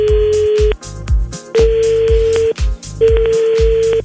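A telephone ringing tone as a call is placed: three long, steady mid-pitched beeps of about a second each, evenly spaced and loud, with low rhythmic pulsing underneath.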